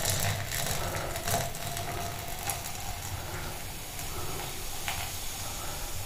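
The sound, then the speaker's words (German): Artificial sweetener fizzing as it dissolves in tea poured into a thermos mug, a faint, continuous hiss with light crackling that stays fairly even. “Das zischt. Das ist der Süßstoff, der sich auflöst.”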